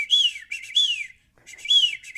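A person whistles an imitation of a bird's chirp, imagined as the call of a bird family in a backyard birdhouse. High, bright whistled notes with downward-sliding sweeps come in two short phrases separated by a brief pause.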